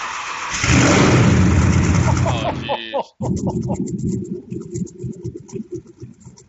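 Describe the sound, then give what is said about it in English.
Cold start of a car engine: a loud, sustained roar as it fires up, a sudden momentary cutout, then a rough, rhythmically pulsing idle that continues steadily. “Here's the cold start of the impressive cold start.”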